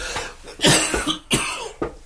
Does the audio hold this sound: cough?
yes